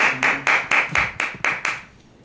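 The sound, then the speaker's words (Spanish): Hand claps follow a live song performance: a short run of sharp, evenly spaced claps at a brisk, steady rhythm, fairly loud, ending abruptly and leaving near silence. “Ahora sí que quiero aplaudir.”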